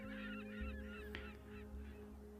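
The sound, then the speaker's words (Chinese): A naval ship's steam whistle sounds as the vessel departs: a steady low tone held throughout, with startled seagulls crying in many overlapping, higher calls above it, all faint. “一声汽笛声，中兴舰开始启动，惊起一片海鸥。”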